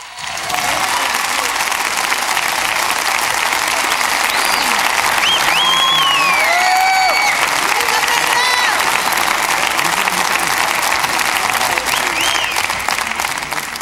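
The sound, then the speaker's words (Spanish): Sustained, loud audience applause welcomes a performer to the stage at a tribute event, an unbroken roar of many hands clapping that stays thick and even throughout. “Un aplauso, por favor, para traer hasta este escenario a Carlos Carreira.”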